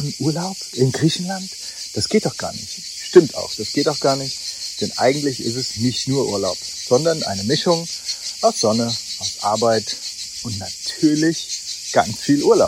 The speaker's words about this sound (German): Man hört die Grillen zirpen, ein typischer Sound in Griechenland im Sommer, wenn man nicht gerade in der Stadt ist.